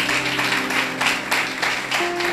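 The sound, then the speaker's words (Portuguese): Church audience applauding during a Sunday service, dense clapping from many hands that swells in a few waves of sharp, busy claps. “Vamos aplaudir a Jesus, terminamos.”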